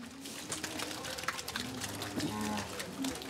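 Cattle on an organic farm, cows let out to pasture after early milking, give several low, drawn-out moos over a steady background of shuffling and clatter.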